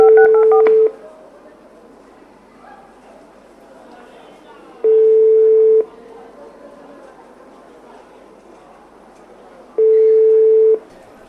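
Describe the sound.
Telephone tones on a landline call to a hotel about a kitchen-assistant job. There are three long, evenly spaced beeps, each about a second of steady mid pitch, separated by several seconds of quiet line hiss and faint murmur.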